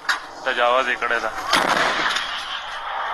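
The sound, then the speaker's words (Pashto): Locally made cannons fired by Taliban forces in Kunar toward the Pakistani side: voices are heard first, then one loud blast that trails off into a long, rumbling roar. “په دې ویډیو کې ښودل کیږي چې ګنې په کونړ کې د طالبانو ځواکونه پر پاکستاني لوري د دیسی توپونو ډزې کوي.”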